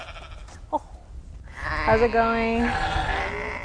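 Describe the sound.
Icelandic and Shetland sheep that graze 150 acres of farmland in summer, bleating: one drawn-out, wavering bleat follows a brief spoken greeting, with a quieter trailing call after it.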